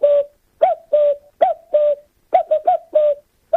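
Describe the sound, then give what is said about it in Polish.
A person imitates a cuckoo's call with the voice: many short hooted "ku-ku" syllables, often paired, at a steady mid pitch, clear and alone with no other talk. “zapraszam pana na lekcję do mnie, dokładnie naśladuję Kukułkę, proszę posłuchać.”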